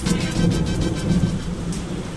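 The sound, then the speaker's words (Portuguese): Heavy rain pours in a dense, steady wash while thunder rumbles low underneath, the whole storm loud and continuous with no voices. “O problema é que estava chovendo muito e eu precisava achar qualquer abrigo bem rápido.”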